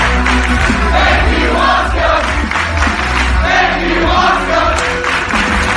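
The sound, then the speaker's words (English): A wrestling crowd cheers for Asuka at a WWE event, a loud, sustained roar of many voices with shouting that holds steady throughout. “And this is what the crowd sounds like.”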